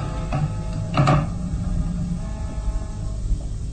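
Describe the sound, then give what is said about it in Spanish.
A key turns in a rusty lock: a faint click, then a short scraping rattle, over a steady low rumble. “Abandonan la alcoba mortuoria y Calimán hace girar la llave en la mohosa cerradura.”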